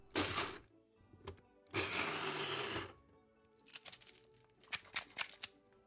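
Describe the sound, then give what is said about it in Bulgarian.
Nutribullet blender pulsing to chop walnuts: two loud whirring bursts, the second longer, followed by several short, lighter rattling knocks of nut pieces in the container. “Ред е да добавя и малко орехови ядки, които обаче наситнявам с няколко пулса в нутрибулета.”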